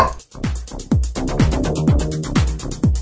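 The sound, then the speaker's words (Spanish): A small female dog barks in a steady run of short, sharp yips, each sliding down in pitch, repeating about every half second with no other sounds over them. “Disculpa mi perrita, es que como les digo, está haciendo el sol, ve hojas volando o aves y las aves son su distracción.”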